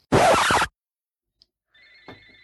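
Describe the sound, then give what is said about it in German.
Telephone ringing, a faint trill of high electronic tones starting after a loud brief scraping noise and a moment of silence, continuing softly to the end with no talk. “Hört ihr das? Ja. Ja. Das ist mein Telefon.”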